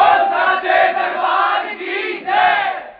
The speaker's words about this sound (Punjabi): ਇੱਕ ਵਾਰ ਜ਼ੋਰਦਾਰ ਜੈਕਾਰੇ ਨਾਲ ਇਜਾਜ਼ਤ ਦਿਓ ਜੈਕਾਰਾ ਉੱਚੇ ਭਵਨਾਂ ਵਾਲੀ ਦਾ